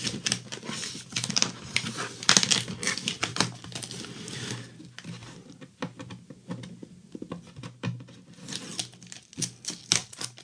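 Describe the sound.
Packing tape peeled by hand off a package: a dense, crackling rip of many fast, sticky ticks that runs for several seconds, eases for a moment, then returns in short bursts.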